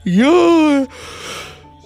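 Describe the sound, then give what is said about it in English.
A voice imitates a yawn to mock a dull awards show: one loud, drawn-out vocal tone that swoops upward and then slowly sinks for under a second, followed by a long, softer breathy exhale. “yawn. You say yawn and it happens.”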